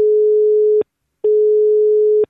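Telephone line tone as a call is placed: two long, steady, low-pitched tones, each framed by a faint click and separated by a short silent gap.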